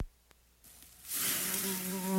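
Mosquitoes buzz in a high, thin whine that sets in after a near-silent start and grows steadily louder toward the end.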